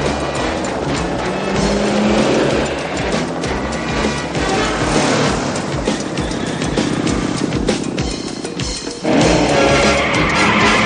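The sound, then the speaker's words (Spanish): Police cars speeding off in pursuit of a van, engines roaring loud and continuous with tire noise, dipping briefly before a sharp surge near the end. “El vehículo de los mandos sale tras la furgoneta. Todos los coches de policía hacen lo propio.”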